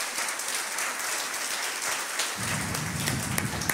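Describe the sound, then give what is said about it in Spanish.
A church audience applauds during a Sunday service: dense, continuous clapping at a steady level, with a fuller low rumble joining in the second half. “¡Un aplauso al Señor!”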